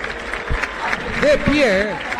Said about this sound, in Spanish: 14, 13, 12, 10 segundos para ovacionar a Messi.